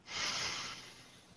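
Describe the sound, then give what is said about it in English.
A single deep breath drawn in, soft and airy, swelling quickly and then tapering off as the inhalation ends. “So let's take a big, deep breath to unite with each other. Breathe in.”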